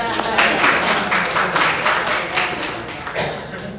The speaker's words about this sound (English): Round of applause for Sue